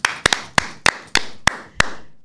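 Separate hand claps ring out sharply in an uneven, slow series, each crisp snap decaying quickly into quiet before the next, sounding like a few people clapping rather than a full audience.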